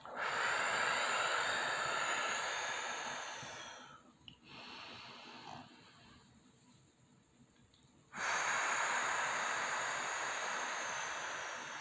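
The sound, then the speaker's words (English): Slow, deep breathing during a guided breathing exercise: long, loud airy rushes of breath with a noticeably quieter stretch in the middle before another strong breath, no talking. “Let's take a couple deep breaths together.”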